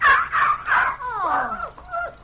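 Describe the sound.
A dog whimpers as if from a hurt paw: a few whining cries, then thin high whines that slide downward in pitch, moderately loud and alone.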